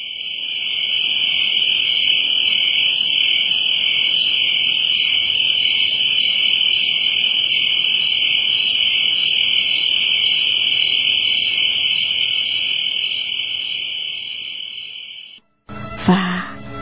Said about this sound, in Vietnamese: Đâu đây có tiếng dế kêu?